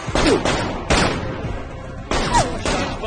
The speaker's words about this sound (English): He fires over a partition fence. In a flurry of gunfire, Gabriel pursues Jacob.